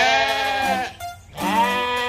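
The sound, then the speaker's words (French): Sheep bleat while grazing on grass around a well: two long, wavering, nasal bleats separated by a short pause, fairly loud and alone. “les sept moutons grignotaient paisiblement l'herbe autour du puits.”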